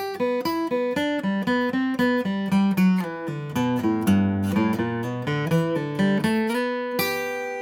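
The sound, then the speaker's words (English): Acoustic guitar lick that runs into a fancy G run at the end, a long stream of brisk plucked notes in steady rhythm with a few lower ringing bass notes. Played alone, with no talk. “If you want to really drag out the ending, you can throw in a G run there and do something fancy. That would sound something like this.”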